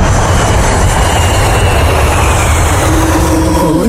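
Steady, loud jet-engine roar of an airplane taking off, used as a night-flight intro effect for a radio show. The broad rushing noise holds even throughout, with a faint whining tone climbing near the end.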